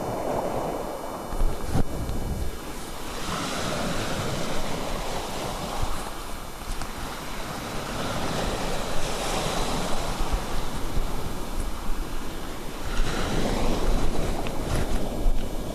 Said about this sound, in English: I have to experiment a bit with the microphone here because, as I said, it is pretty noisy and pretty windy.